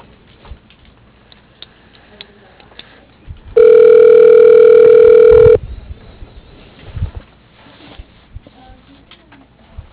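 A telephone tone sounds while a call is being transferred: one steady, loud electronic tone lasting about two seconds, set between stretches of quiet line hiss.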